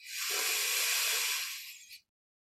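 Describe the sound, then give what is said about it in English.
One slow, deep breath, a soft airy hiss that swells quickly, holds for about two seconds, then tapers away into silence. “Nice deep breath.”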